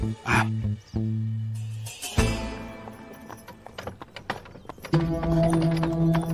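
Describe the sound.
Hooves clip-clop from a horse-drawn carriage: many brisk, sharp hoof strikes in an uneven rhythm, with a sustained tonal layer running through parts of it.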